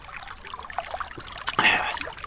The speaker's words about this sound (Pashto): دا خوږې اوبه هم ورپسې وغړپوه.